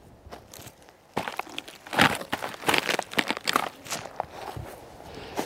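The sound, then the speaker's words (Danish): Rotten wood crunching and crackling as it breaks apart: irregular bursts of dry, brittle snapping, quiet for the first second, then many louder crunches in an uneven rhythm, with no voices. “Det er altså rådden træ, der siger den vildeste lyd.”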